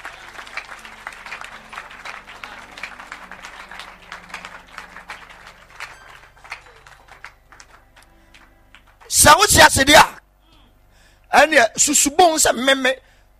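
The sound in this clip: Audience clapping during a sermon about God: two short, loud bursts of clapping break in after a stretch of quieter talking.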